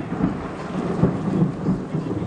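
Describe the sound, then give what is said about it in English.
Fierce, heavy rain pours down at night over a Tarahumara village as a dense, steady hiss, with low rumbles of thunder swelling underneath at a few points. “Soon the sky opens and the rain is fierce”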